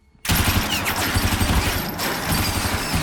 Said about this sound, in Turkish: Duyduğum makineli tüfek sesi mi